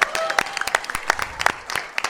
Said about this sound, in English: Let's give her a hand.